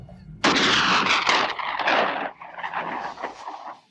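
A single loud gunshot fired at a target, a sharp blast followed by a long rolling, rumbling decay that fades out over several seconds.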